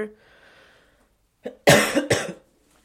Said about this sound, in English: And I'm sorry for all that coughing and all that.